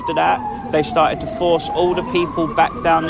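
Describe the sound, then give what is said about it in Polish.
Police and ambulance sirens sound in central London near the cordoned-off Parliament. A steady, slowly wavering wail runs throughout while people talk over it. “syreny policji i ambulanców to dziś w centrum Londynu dominujący dźwięk”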